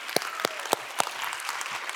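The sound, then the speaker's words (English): Applause from an audience at a morning community event: four sharp, loud claps stand out from a steady patter of clapping. “give him a round of applause”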